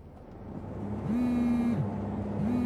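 Car driving across town in Damascus: a steady engine drone with a low humming whine that rises and holds, gradually growing louder.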